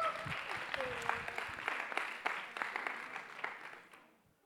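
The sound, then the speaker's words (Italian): Audience applause at a meeting: dense, steady clapping from a crowd, briefly under a voice at the start, then thinning and fading out over the final second. “Vogliamo fare un applauso a questi due.”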